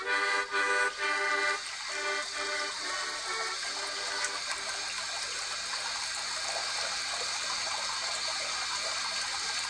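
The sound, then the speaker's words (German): Water gushing steadily from an old, stiff tap as it fills a small pond, a constant bright hiss that runs without a break. “So, jetzt kann ich auch den Wasserhahn zudrehen. Jawohl, der See ist, glaube ich, groß genug.”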